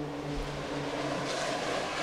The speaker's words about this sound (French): Ça, c'est des canadaires, il doit y avoir des feux.